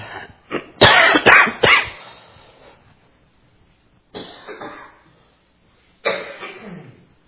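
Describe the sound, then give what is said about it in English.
Coughing picked up by a church microphone: a quick cluster of loud, harsh coughs, then two further separate raspy coughs after short pauses, with no talking. “microphones that are able to expand upon your coughing and blast the congregation”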